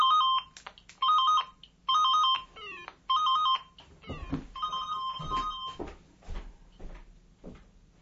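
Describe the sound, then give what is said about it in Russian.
A mobile phone ringtone from a phone in a pocket: four short repeated bursts of bright electronic melody, then rustling and handling noise as the tune sounds briefly once more and stops. “извиняюсь, случайно оказался телефон в кармане.”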